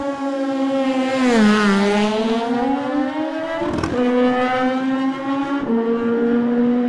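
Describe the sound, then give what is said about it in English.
A Norton racing motorcycle engine roars loudly at the race start, its harsh note sweeping up and dropping back through several gear changes and climbing steadily between the shifts. “Peter Hickman on the Norton. Let's hope he makes it round.”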